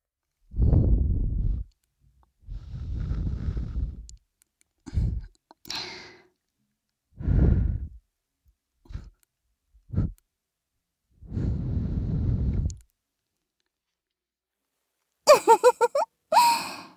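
Soft breaths blown gently into the ear come as several airy, low puffs of varying length, separated by silences, with a few short clicks near the end.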